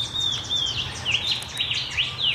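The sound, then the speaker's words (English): A shining bronze cuckoo calls in a series of high, thin whistled notes, several slurred whistles repeated one after another over a steady low background hum. “I think that might be a shining bronze cuckoo.”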